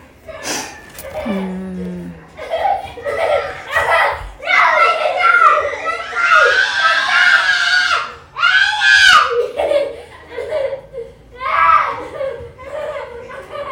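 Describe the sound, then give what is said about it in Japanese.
Children play and shout around a house: many shrill, overlapping young voices with squeals and screams keep up a loud, continuous din with no quiet gaps. “ちょっと家の周り子供がめっちゃいて、ちょっとうるさいですよね。”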